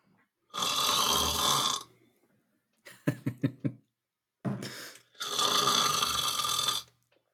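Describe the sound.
A voice imitating the snoring of a sleeping dwarf: two long, loud, rasping snores with a sputtering run of short puffs and burbling breaths between them.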